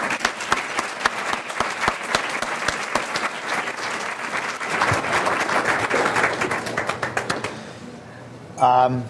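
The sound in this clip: Audience applause welcomes a keynote speaker at a business conference at Baylor in Texas. Many crisp individual claps stand out in a steady, dense ovation that thins out near the end, and a brief voice follows.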